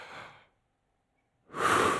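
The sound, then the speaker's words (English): A deep breath: a soft, airy breath fades out and is followed by about a second of silence. A louder, fuller rush of breath then swells and holds to the end. “Big deep breath.”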